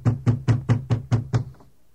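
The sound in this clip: Heavy pounding knocks on a door as officials demand entry: seven hard, evenly spaced blows in a steady rhythm, each landing loud and dull, then silence.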